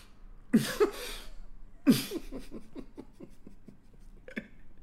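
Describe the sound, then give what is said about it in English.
A person imitates the breathing noise of a Pilates workout: a couple of forceful, breathy huffs followed by a long run of many quick, short rhythmic breath pulses, with no words spoken. “But that's the noise. Because I'm trying to breathe.”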